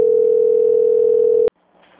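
A steady single-pitched telephone tone sounds during a call transfer, holding unbroken for about a second and a half before cutting off abruptly to near silence.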